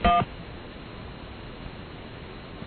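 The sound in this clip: A single short telephone keypad tone at the start, entered to reach an extension on an office phone menu, followed by a steady faint line hiss.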